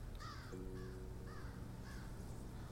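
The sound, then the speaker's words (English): A crow perched on the side of a cabin caws four times, hoarse, evenly spaced calls standing out over a steady background hiss. “It crows and looks down at you.”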